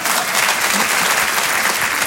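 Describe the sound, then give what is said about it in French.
Audience applause greeting an elderly man brought forward at a show, a dense, continuous wash of many hands clapping at a steady loud level with no pauses. “Ah, regarde, donc, on peut l'applaudir, mon Dédé.”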